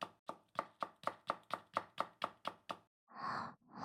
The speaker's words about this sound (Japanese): ちなみに、あなたは今、お料理中ですか？